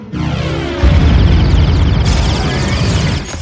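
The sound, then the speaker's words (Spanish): A science-fiction film effect of a spaceship turning and opening fire: descending whining sweeps lead into a sudden loud, roaring blast that holds heavy and sustained to the end. “La nave da la vuelta y abre fuego.”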